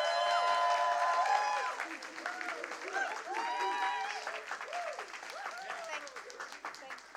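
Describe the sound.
A standing church audience at Equippers Essex applauds to welcome a pastor: dense, loud clapping that holds steady, then thins and fades slightly, with voices mixed into the crowd.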